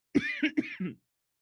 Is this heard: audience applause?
no

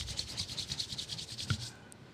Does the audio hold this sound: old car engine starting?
no

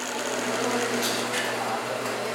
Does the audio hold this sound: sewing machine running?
yes

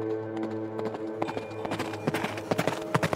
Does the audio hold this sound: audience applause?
no

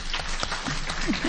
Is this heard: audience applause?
yes

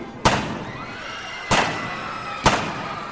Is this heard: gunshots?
yes

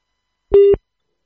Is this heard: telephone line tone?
yes

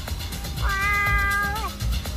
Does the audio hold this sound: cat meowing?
yes

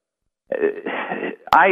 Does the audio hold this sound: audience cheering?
no

